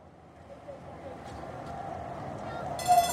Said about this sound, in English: Ah, here's the tram.